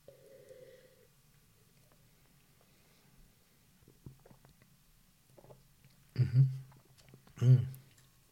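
Two short slurping sips as people taste a malty, lightly bready beer. Each sip is a brief wet burst, loud against a faint, quiet background.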